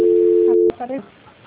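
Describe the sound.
A steady telephone tone during a call transfer holds loudly, then stops abruptly and a voice begins talking.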